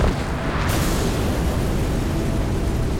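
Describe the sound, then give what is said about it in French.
An explosion sound effect of an inn blown up by gunpowder barrels: a dense, sustained roaring rumble that holds steady for about three seconds, with a brighter hiss joining early on. “l'auberge dans laquelle il passe la nuit... oh, explose!”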